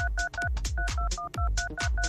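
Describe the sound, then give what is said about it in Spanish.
Telephone keypad tones as a number is dialed on a radio call-in show, with many quick dual-pitched beeps in a steady run and no talking. “vamos a marcar. A ver, marcando ahora.”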